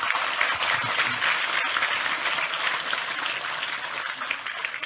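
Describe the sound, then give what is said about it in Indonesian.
Applause from an audience at a religious talk, urged to clap louder: a sustained, dense rattle of hands lasting about five seconds at an even, moderate level with little change. “Sekali lagi tepuk tangan lebih keras untuk Tejo.”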